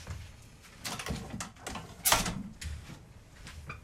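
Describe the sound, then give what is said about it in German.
Someone opens a window early in the morning during a hot spell to let in fresh air. A few soft knocks and rattles of handling lead to one sharp, louder clack midway, followed by quieter scraping and settling sounds. “wenn wir das Fenster aufmachen. Moment, ich muss schnell kurz aufmachen.”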